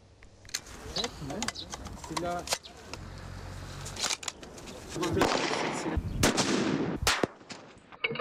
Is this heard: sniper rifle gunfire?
yes